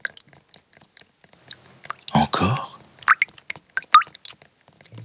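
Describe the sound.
Rain dripping into puddles, with scattered light, irregular drips and one louder, squelchy splash midway through. There is no talk.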